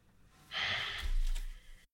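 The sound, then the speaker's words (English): A single deep breath drawn in, quiet and airy. A soft hiss of inhaled air swells, then gives way to a low, breathy rumble before ending abruptly. “Just take a nice deep breath in after saying that.”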